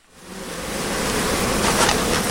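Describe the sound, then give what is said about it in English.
Honeybees make a dense, steady buzz as a hive frame heavy with bees, pollen, wax and honey is lifted out at an apiary in southwest France. The hum swells over the first second, then holds as an even, broad drone. “Guillaume Algeret lifts a frame out of one of his 400 hives, heavy with bees, pollen, wax, and honey.”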